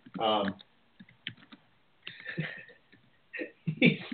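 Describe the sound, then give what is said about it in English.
Typing on a computer keyboard: a few scattered clicks and short clattering bursts, interrupted by brief voiced sounds. “He's typing, I swear.”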